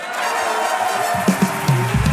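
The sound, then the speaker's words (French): Audience applause serves as a show-of-hands vote from a live show's public, a steady, dense wash of clapping that holds at an even loudness throughout, with a few brief, louder bursts near the end. “Par applaudissement, qui est pour ?”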